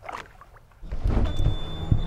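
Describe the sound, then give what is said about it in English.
A boat motor starts on the water at Chicago: near silence, then just under a second in, a low engine rumble kicks in and holds at a steady, fairly loud level. “I'm glad the motor started.”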